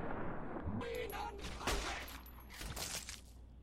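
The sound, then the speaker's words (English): Gunfire rings out in a Fallout video game: a few sharp shots crack over a dense, noisy background, faint overall. “So I'm shooting up at them, so I don't have a great angle, but I'm okay. I can get a pretty good shot off on their lower arms.”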